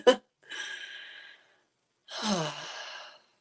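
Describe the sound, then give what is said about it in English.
A speaker takes a deep breath: a sharp click, then a long airy inhale, a pause, and a voiced, sighing exhale, with no talk. “All right, I'm going to breathe.”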